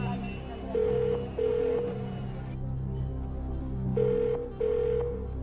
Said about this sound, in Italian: Sta squillando.